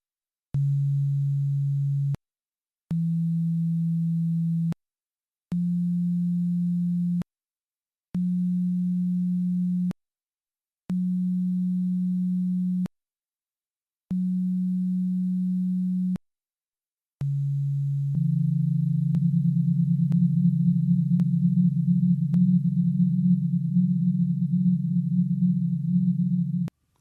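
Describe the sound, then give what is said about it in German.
Fundamental tones of the hydrogen Lyman series, transposed 42 to 44 octaves down and generated by oscillators programmed in Pure Data: six separate steady low sine tones, each about two seconds, then a sustained layered chord of tones. “Diese Frequenzen können nun um 42 bzw. 44 Oktaven nach unten transponiert und so in den hörbaren Bereich gebracht werden. So klingen zum Beispiel die Grundtöne der Lyman-Serie.”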